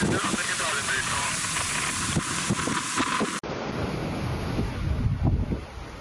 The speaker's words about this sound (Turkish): İstanbul'da şiddetli rüzgar nedeniyle denizde oluşan dalgaların boyu yer yer 3 metreyi buldu.